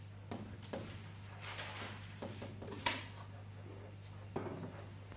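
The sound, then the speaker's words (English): A lecturer writing on a board, heard as faint scratching and tapping strokes in short, irregular bursts over a steady low hum. “Okay, here I should write neglect self-energy somewhere,”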